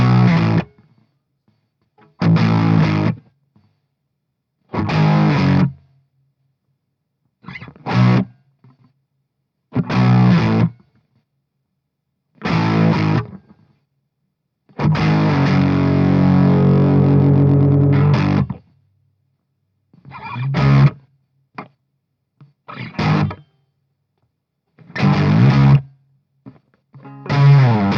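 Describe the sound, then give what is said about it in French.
Fuzz-distorted electric guitar plays a verse slowly in short, choppy bursts separated by silences, with one longer sustained passage in the middle; the tone is thick and buzzy, with no voices. “Donc le son, il est assez fuzz hein, là-dessus.”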